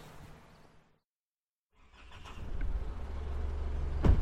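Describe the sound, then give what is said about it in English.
A ute engine drives up a hill. A short silence gives way to a low motor rumble that builds and then holds as a steady, loud drone. “We hop back in the ute and make the five minute drive up the hill”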